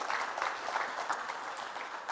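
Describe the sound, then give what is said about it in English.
An audience applauds to congratulate a newly married couple, with steady, fairly soft clapping that carries evenly through the whole moment. “So you might like to put your hands together and congratulate them on their wedding.”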